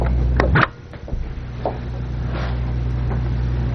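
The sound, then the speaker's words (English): A door is being closed: one solid thud sounds near the start, then a low, steady background hum continues under a few faint knocks. “Maybe we should close this door. It'll be quieter. Okay. And I'll close the other door, too.”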